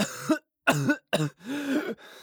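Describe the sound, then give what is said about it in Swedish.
Severe, voiced coughing from a person with asthma who is struggling to breathe: four harsh bursts separated by short gaps, the last one longer and drawn out. “Och svår hosta.”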